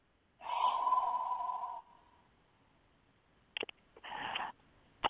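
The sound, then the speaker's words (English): A slow, audible exhale from a guided breathing exercise lasts over a second and has a faint tonal, whistling edge. It is followed by quieter breath sounds and a few short, sharper breathy bursts. “One more time. Inhale. And exhale.”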